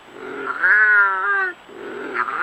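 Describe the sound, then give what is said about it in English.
A wild cat yowling, one of Britain's native wildcats. One drawn-out, tonal, wailing cry dominates, with softer, shorter cries just before and after it, all heard alone without talk. “efforts to revive the only native cats still found in the wild in Britain”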